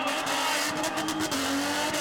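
A race car's engine and tyres during a stunt run in front of a crowd produce a loud, sustained roar whose tone shifts partway through, with no pauses.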